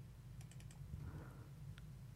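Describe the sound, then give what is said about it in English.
Faint typing and clicking on a computer keyboard: a quick run of light key taps followed later by a single isolated click, over a low steady hum. “have you finished typing? I've just got to click.”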